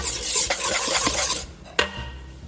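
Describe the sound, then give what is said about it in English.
Rapid whisking of a lemon juice and black pepper dressing in a bowl, with busy clicking and scraping that eases off midway, followed by a single sharp clink. “Okay, so whisking.”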